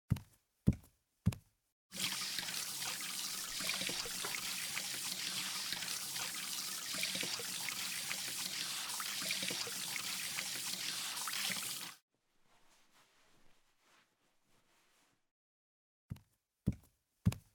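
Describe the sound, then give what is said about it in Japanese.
Hands are washed under running tap water at a washbasin, a steady rushing splash lasting about ten seconds. A few sharp knocks come before it, and a few more follow after it stops. “洗面所借りていい？手はちゃんと洗っておかないと。”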